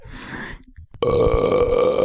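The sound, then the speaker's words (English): A long, loud, throaty burp released after a workout, sustained for about a second with a steady rasping tone, preceded by a short breathy noise. “Is that you burping? That's me burping after because I did a good workout and I deserve to relieve some gas.”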